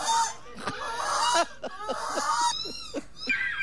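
A person imitates a seagull's squawk at a gull-imitation contest, giving a run of short, harsh, high squawking calls with strong harmonics, fairly loud and repeated in quick succession.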